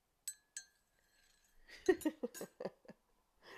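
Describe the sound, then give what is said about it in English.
A teaspoon stirring tea in a cup gives two bright, separate clinks, followed after a pause by a quick run of softer clattering taps. “So, I'm just making myself a tea.”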